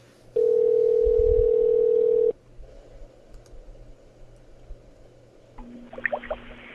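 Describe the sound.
An outgoing telephone call ringing on the line: one long, steady electronic ring tone lasting about two seconds, followed by a quiet hissing line with faint clicks.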